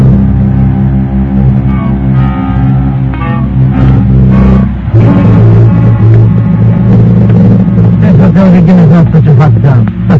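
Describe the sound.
A car drives off: the engine rumbles low and steady at first, then roughly halfway through becomes louder and busier as it revs and pulls away, staying loud to the end.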